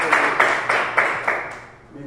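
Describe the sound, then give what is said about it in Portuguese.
Rhythmic clapping during a church service, five sharp, evenly spaced beats about a third of a second apart, each ringing out briefly before the sound tails off. “As palmas que adoram ao Jesus, eu quero passar para o pastor Jefferson agora. As palmas que adoram ao Jesus.”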